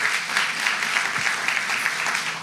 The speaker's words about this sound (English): Give yourselves a hand.